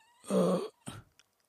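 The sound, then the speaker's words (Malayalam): Coughing from one person: a longer, forceful cough followed by a shorter, weaker one. Both are alone, and a faint click comes at the end. “ചുമയും തുടങ്ങി”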